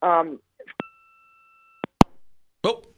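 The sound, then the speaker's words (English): A phone call drops with a brief, steady two-pitched electronic tone lasting about a second, framed by sharp line clicks. Voices speak just before and after. “We just got disconnected from Sarah Spain. I guess a hard out is a hard out.”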